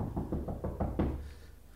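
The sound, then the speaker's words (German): Someone knocks on a wooden door in a quick, even series of sharp raps, with the last knock ringing on briefly. No voices accompany it. “Wer klopft? So auf die Türe rauscht, erwarte ich Unglück.”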